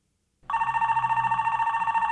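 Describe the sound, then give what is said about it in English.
A telephone rings at home in the early evening: after a brief silence, a loud trilling ring starts and continues to the end. “It's George on the phone, pride stuck in his craw, calling Billy, hoping this burnout will come to his rescue.”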